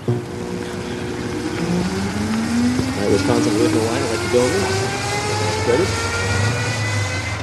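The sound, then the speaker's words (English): An open-wheeled Indy-style hybrid race car makes an electric-only run at a racetrack, giving off a steady motor whine that climbs gradually in pitch over a low, constant hum. “Okay, to be fair, that was an electric-only run. When it's time to hit the gas in these open-wheeled, Indy-style hybrids, some of them sound like this.”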